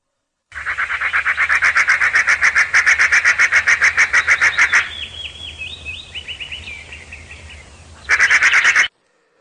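Magpies chattering around a small house in a forest: a long, loud, harsh rattling series of rapid pulses, then softer gurgling calls, and a final short burst of the same dry rattle, over a low steady hum.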